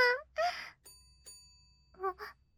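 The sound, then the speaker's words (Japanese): A bell rung by a master to summon a servant: two bright metallic strikes with long ringing overtones, set between brief vocal sounds and a gasp. “このベルの音は、ご主人様が呼んでいらっしゃいます。”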